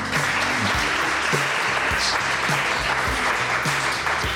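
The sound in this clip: Live audience at Little Nashville Cafe applauding to welcome a guest: steady, dense clapping that stays at an even level from start to finish, with no voices standing out.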